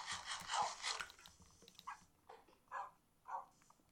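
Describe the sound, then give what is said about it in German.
Dogs in the video game Minecraft give a few short, soft barks or whines, faint and spaced apart after a brief noisy opening. “Warum haben wir uns eigentlich so viele Hunde gemacht?”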